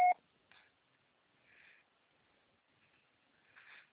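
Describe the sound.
Telephone dialing tones from a call attempt on a cell phone: one loud, sharp beep opens, then a few faint, short tonal bursts follow at uneven gaps across otherwise quiet seconds.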